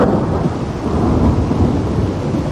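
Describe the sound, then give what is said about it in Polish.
Loud, rumbling thunder rolls on without a break, mixed with the steady hiss of heavy rain, and no voices are heard. “Jak są bardzo głośne pioruny, to strasznie się boimy i zaczynamy się zastanawiać, czy dobrze się zabezpieczyliśmy.”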